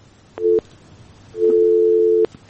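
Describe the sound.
A telephone busy tone sounds after a caller's line drops: a short steady beep, a brief gap, then a longer beep at the same pitch, clear and alone.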